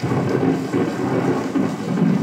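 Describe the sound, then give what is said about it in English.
Thunder and rain recorded on the Great Plains: a continuous, heavy low rumble blends with the steady hiss of falling rain, holding a fairly even loudness throughout with slight swells. “Enter the Hall of North American Indian at the Peabody Museum, and you're greeted by a recording of thunder and rain from the Great Plains”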